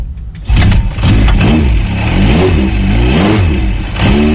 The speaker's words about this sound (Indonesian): Mana si motor itu dihidupin mesinnya gini loh.